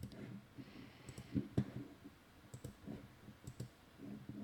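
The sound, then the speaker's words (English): A computer mouse clicking on links: several sharp, faint clicks, some in quick pairs, spread at irregular intervals. “Boy, every time I click off a link, every single time that I click off a link, stand by.”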